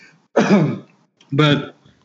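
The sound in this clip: Two rough, throaty bursts of throat clearing, the second slightly lower and fuller, are separated by a short pause and heard alone.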